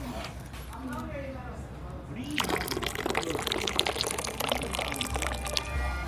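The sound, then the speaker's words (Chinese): Water is poured into tea during a tasting. After a couple of seconds of conversation, a steady splashing pour begins and runs to the end, with people talking over it. “这个好，你这个到这个时候你去加水了，不应该一次喝完。”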